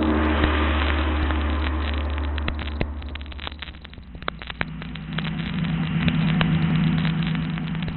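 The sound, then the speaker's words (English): A car engine droning as the car drives fast at night, a steady loud hum and rumble that dips slightly midway and then settles into a lower, even tone. “No need to drive so fast, Petrie. Plenty of time.”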